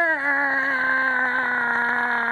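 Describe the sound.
A voice imitates the screech of a small mobility scooter straining under a very heavy rider, holding a loud, steady, nasal whine with strong harmonics for about two seconds.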